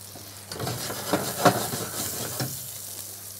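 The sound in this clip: Fish sizzling in a frying pan, a steady crackling hiss with a few brief louder pops and clatters, heard alone without voices.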